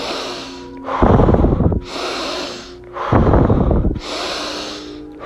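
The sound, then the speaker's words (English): Fast breathing in and out during a guided breathing exercise: softer hissing inhales alternate with louder, forceful rushing exhales in a steady rhythm of a few quick cycles, with no talking. “3 breaths, fast, in, out, in, out.”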